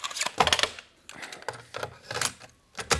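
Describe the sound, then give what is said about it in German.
Plastic clacks and clicks as a cassette tape is pushed into a desk tape recorder, a few quick, sharp mechanical knocks and rattles in irregular succession. “Eine Kassette. Augenblick, da steht was drauf. Feckle Kühlschränke-Kampagne. Bericht aus dem Testgebiet. Probier mal aus, ob sie in den Rekorder auf dem Schreibtisch passt.”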